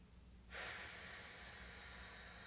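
A slow, deep exhale from a guided relaxation breathing exercise begins after a short quiet pause. The faint, airy breath out is heard alone and trails off gradually.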